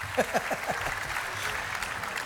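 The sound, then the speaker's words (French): Fans cheer and applaud after a concert in a Roman theatre. Dense clapping fills the whole clip, with a few brief shouts near the start. “Ah, wow. Et les fans crient.”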